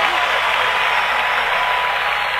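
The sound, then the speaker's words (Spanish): Loud audience applause for the maestro, an unbroken wash of clapping held at steady volume, with a voice faintly audible underneath. “para el maestro, los aplausos. Fuertes aplausos. Fuertes aplausos.”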